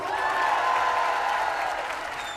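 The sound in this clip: Audience applause for singer Iba Tawaji, dense, steady clapping from a crowd that stays loud throughout and eases off slightly at the end.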